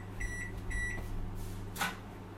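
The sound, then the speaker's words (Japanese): A microwave oven gives two short, high-pitched beeps as it finishes heating, over its steady low hum. A brief noisy burst follows later. “電子レンジでチンしました。”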